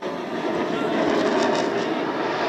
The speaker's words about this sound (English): Plane just about in front of me, the red light flashing, no sound yet. And there he is, knife edge pass.